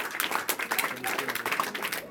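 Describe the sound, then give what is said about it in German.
An audience claps to vote for a song, producing a loose, uneven burst of many individual hand claps with some voices mixed in, the claps landing irregularly rather than in unison. “Dann stimmen wir doch mit Klatschen ab. Wer ist dafür, dass wir das erste Lied an Robinson Crusoe schicken?”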